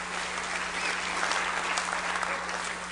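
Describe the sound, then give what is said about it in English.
Congregation at a church worship service applauding in praise: a sustained wash of many hands clapping at an even level over a low steady hum, with faint voices mixed in. “Can we just put our hands together to praise the Lord just for his ministry to us this morning?”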